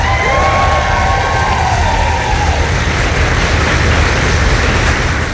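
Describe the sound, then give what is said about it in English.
Foreign Office staff cheer Ukraine's president Volodymyr Zelensky as he arrives for talks with the Prime Minister. A dense, steady wall of cheering and shouting with some clapping holds loud and unbroken from start to end. “Volodymyr Zelensky was also cheered by staff from the Foreign Office as he arrived for talks with the Prime Minister.”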